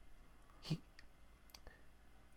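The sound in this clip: Faint clicks sound on a telephone line. One sharper click is followed by a few softer ones over a quiet low hiss.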